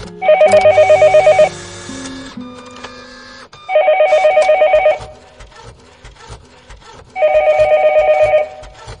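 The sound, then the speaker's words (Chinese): A telephone rings in a room with a coffee table and sofa strewn with printed papers: three loud bursts of rapid electronic trilling separated by pauses, with faint clattering in between. “这时电话响”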